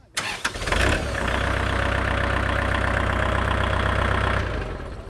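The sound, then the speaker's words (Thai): A tractor engine, started with the gear in neutral, cranks in a few quick bursts, catches, and settles into a loud, steady, low chugging idle for about four seconds before easing off at the end. “เราก็ดูเกียร์ว่าเกียร์อยู่ในตำแหน่งที่ว่างหรือยังหลังจากนั้นเราก็ทำการสตาร์ทเครื่อง”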